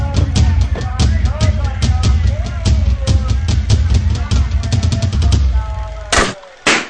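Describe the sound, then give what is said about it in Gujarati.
A toy-gun shot at a balloon-shooting stall bursts a balloon: two sharp, loud cracks near the end over a busy, rhythmic background. “તે તો એક જ વારમાં ફૂગો ફોડી નાખ્યો.”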